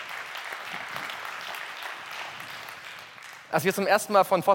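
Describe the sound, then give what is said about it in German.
Audience applause at a Fossil Free divestment event: sustained clapping from a large crowd that runs steadily and then eases off, before a single voice begins speaking. “ihr habt eben geklatscht, aber ich bitte euch nochmal zu klatschen”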